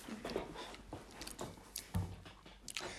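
Biting and chewing a rice sandwich filled with tuna and beans, heard as quiet, uneven crunches and soft squishy mouth sounds, with several sharper bites standing out.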